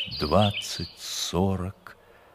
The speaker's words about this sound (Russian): Поют соловьи в Каменке.